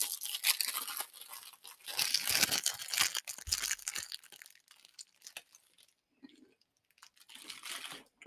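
Crinkling and tearing of a snack package being opened: bursts of crackly rustling plastic, a brief lull, then further crinkles toward the end, with no speech.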